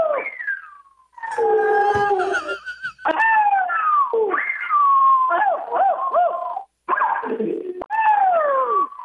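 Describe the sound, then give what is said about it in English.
A dog gives drawn-out, wavering whining cries that bend up and down in pitch in several long phrases with short gaps between them. No barks stand out. “That's the dog. That's the dog. There it was.”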